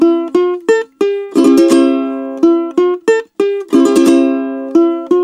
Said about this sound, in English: Because if you're playing the triple strum and it sounds like this,